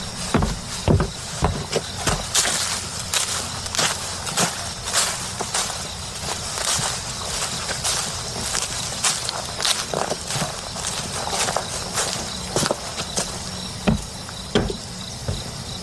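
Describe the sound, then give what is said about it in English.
Footsteps crunch through dry fallen leaves covering the ground in August. The steps are loud, uneven and many, with a steady insect chirping beneath them. “it's like in the middle of August or something, because there's leaves all over the ground. And just listen how loud he is whenever he walks around.”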